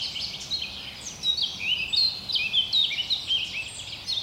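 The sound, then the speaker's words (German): Birds singing in a forest: high, thin chirps and quick twittering phrases repeat throughout over a steady soft background hiss. “Die Vögel sind natürlich alle schon längst aufgewacht.”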